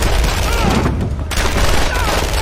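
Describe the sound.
A dense burst of gunfire, a continuous rough crackle and rumble with no clearly separate shots, steady and loud from start to end.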